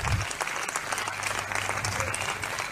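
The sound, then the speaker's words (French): A church audience applauds in praise during worship, producing a steady, even wash of many hands clapping together that holds at a moderate level throughout, with no single claps standing out. “Est-ce qu'on peut acclamer pour Jésus?”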